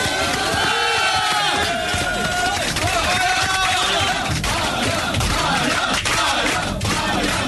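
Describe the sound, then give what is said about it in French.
A standing ovation for a guest: a dense crowd roars with cheering and shouted voices, loud and sustained without a break from start to finish. “Peut-être mettre debout pour les saluer, peut-être pour la standing ovation quand même pour Alain de Brest.”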